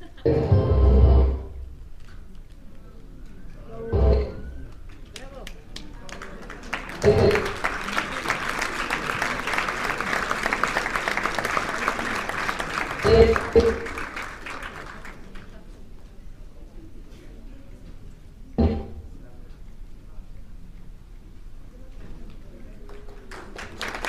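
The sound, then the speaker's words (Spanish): Audience applause after a speech, with dense sustained clapping that swells for several seconds and then thins out, while a few louder knocks or thumps stand out at intervals. “le mandamos un cariñoso y fuerte aplauso a nuestra querida licenciada Marcela”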